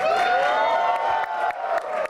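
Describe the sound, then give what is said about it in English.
Theater audience at the Lincoln Center Theater cheering and whooping as a comedian is introduced: a dense, steady roar of voices with sustained shouts and scattered claps, holding loud throughout. “As the music dies down and the lights dim, the crowd goes quiet. All right, ladies and gentlemen, please welcome Veer Das. And then erupts in cheers.”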